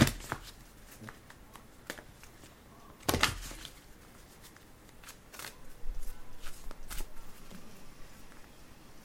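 Tarot cards being shuffled and pulled for a reading give soft, papery riffles and light flicks, mostly faint, with a louder, denser burst of shuffling near the middle and scattered taps afterward.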